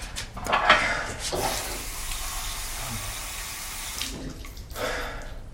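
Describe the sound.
Tap water runs into a glass at a bathroom vanity as the glass is refilled. A steady, hissing stream of water flows for the whole stretch, with a few brighter splashes near the start and end.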